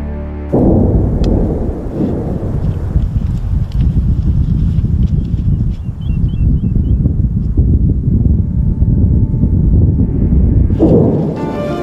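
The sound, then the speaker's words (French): Mount Etna roars during an eruption as ash and lava are thrown upward, with wind and smoke blowing. The result is a loud, continuous deep rumble that holds steady for about eleven seconds before easing off at the end. “C'est le son de l'Etna en pleine éruption. On entend le bruit du vent, le souffle des fumées. Des cendres et de la lave sont projetées en hauteur.”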